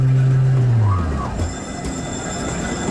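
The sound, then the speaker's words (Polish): A tram derived from the 105N model, built on a Tatra base, slows into a stop in Silesia. A loud, low motor whine drops steadily in pitch while a brief squeal arcs above it, leaving a quieter rumble with a thin, high tone. “Moja siódemka dojeżdża właśnie do przystanku Piaśniki Skrzyżowanie.”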